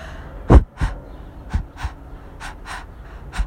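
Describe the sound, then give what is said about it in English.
Breathing processed through voice plugins mimics a heartbeat, with about four paired low, breathy thumps at a steady pulse, the first pair loudest. “I did that with my voice, and then I had like a couple of plugins on the voice, so I made it sound like a heartbeat, but it was just me breathing.”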